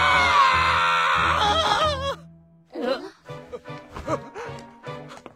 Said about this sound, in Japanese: 今の悲鳴ってこの人の？